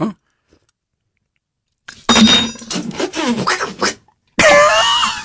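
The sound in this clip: Gagging, sputtering and coughing from a woman trying to drink hand sanitizer: a silent pause, then a loud burst of choked noises, a brief break and a strained vocal outburst at the end.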